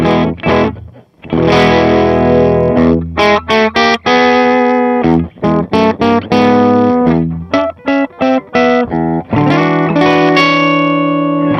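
Electric guitar played through a TC Electronic effects pedal that thickens the tone without distortion or overdrive: a run of ringing sustained chords and single notes, some clipped short and staccato, played alone without voices.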